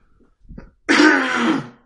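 A person clears their throat in one loud, rough, cough-like burst that lasts about half a second. A few faint, brief throat sounds come before it.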